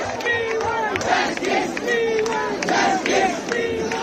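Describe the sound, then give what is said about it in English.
Protesters of the youth-led Cockroach Movement in Delhi chant defiantly. A large crowd repeats a short slogan in a steady, rhythmic cycle, loud and continuous, with shouting voices layered over it. “Sounds of defiance organised by the youth-led and memorably entitled Cockroach Movement, the CJP.”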